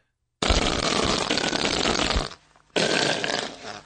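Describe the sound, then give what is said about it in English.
A loud, raspy fart-like blast like a whoopee cushion, followed after a short pause by a second, shorter burst. “Was that a fart? Well, if it was, it's ill. Oh, a whoopee cushion. A bad one. Very low key on a keyboard.”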